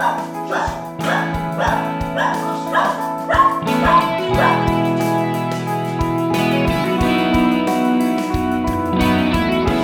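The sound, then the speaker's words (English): A tiny border terrier barks at a knock on the door, firing off many sharp, high yaps in quick succession over a sustained tonal background. “That's my dog, because the postman has dared to knock on our door and Jack says”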